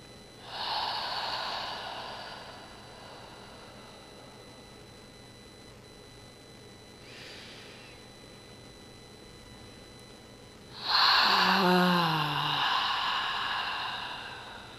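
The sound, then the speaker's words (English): Slow, deep breaths from a guided breathing exercise, each inhale and exhale held for four counts: long airy breaths, a loud one at the start, a faint one midway, then a loud voiced exhale sinking in pitch at the end. “inhale for 4 counts and exhale for 4 counts. And in total, we'll share 5 breaths together. Let's begin.”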